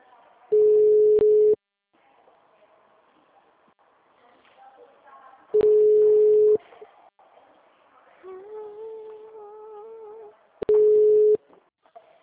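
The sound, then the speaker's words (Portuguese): Ringback tones sound while a phone call is being placed: three long, steady, evenly pitched beeps about five seconds apart, with faint murmuring sounds between them. “eu vou fazer uma ligação pra caixinha, tá? Pra conta.”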